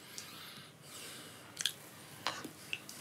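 Faint chewing of a tasting bite with dried tomato and garlic: a few soft, moist clicks and squishes over quiet background hiss.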